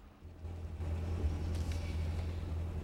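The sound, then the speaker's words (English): A car's engine rumbles low and steady as it pulls up on a patch of waste ground near terraced houses, rising slightly in loudness after the first half second and holding even to the end. “stops her car on a patch of waste ground close to the terraced houses”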